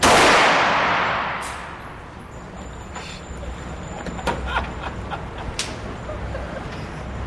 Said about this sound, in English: About to fire his first shot here.